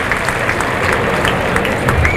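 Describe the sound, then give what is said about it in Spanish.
Bullfight spectators applaud the bullfighter after the bull goes down, a dense, continuous ring of clapping with crowd murmur mixed in, fairly loud and even throughout. “Ilea Vicens, que se va a los medios, el público le aplaude.”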